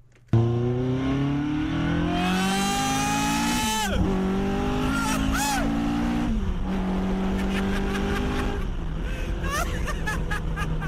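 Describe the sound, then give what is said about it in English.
A CSR 260 sports car accelerates hard, its engine note climbing steadily in pitch and dropping back at each of several gear changes, loud and continuous throughout. “That is me experiencing the sheer visceral pleasure of driving a £42,000 CSR 260. I didn't break the speed limit. It was just the rate of the acceleration”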